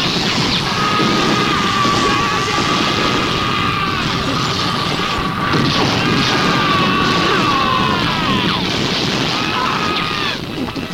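China smashes and crashes as a china shop is torn apart, a loud, dense and continuous din of breaking crockery that runs without clear pauses.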